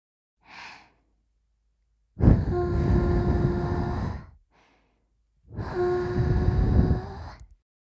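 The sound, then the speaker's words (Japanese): Two long, breathy blows of air into the ear to finish an ear-cleaning session. Each is about two seconds of loud rushing air with a faint whistling tone, and each follows a short, soft intake of breath. “それじゃあ最後に耳をふーっとしますね。いきますよ。”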